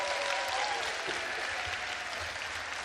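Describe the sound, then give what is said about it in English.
Steady audience applause for a group of kids, a dense, even patter of clapping hands that holds at a constant level for about three seconds without any voices. “Give these guys another big hand.”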